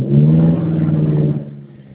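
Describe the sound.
The engine of a car being driven gives a low, steady, droning hum with a clear tonal buzz, which softens slightly near the end. No one speaks over it.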